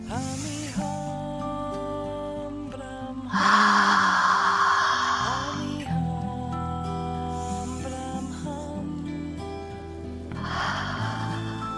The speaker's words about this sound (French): Inspire et expire vers l'extérieur.